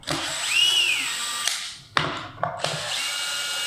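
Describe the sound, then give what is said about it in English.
A power driver whirs as four screws are backed out of a bare-finish access floor panel. The motor whines in several bursts, its pitch swelling and falling, with sharp clicks between runs. “So he's now just removed the four screws of which he can lift up the access floor panel”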